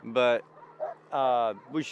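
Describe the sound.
Young sled dogs bark and yip on a warm day before a long-distance race. Two drawn-out, tonal barks stand out, with shorter, fainter yips between them and at the end.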